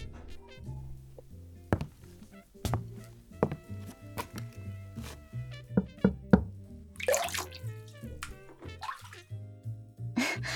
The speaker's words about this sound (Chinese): 是我在洗澡呢。